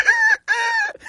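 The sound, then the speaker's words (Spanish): A rooster crows in the Cuban countryside: two loud, bright, sustained calls of steady pitch, split by a brief gap, then the start of a third. “Y para despertarme, no necesito el reloj. Tengo el cantillo del gallo.”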